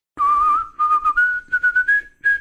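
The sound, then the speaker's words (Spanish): Someone whistles a tune alone: a long held opening note, then a string of short clipped notes that edge slightly upward in pitch, clear and bright. “me gustaría que silbaras el tema de Todopoderosos”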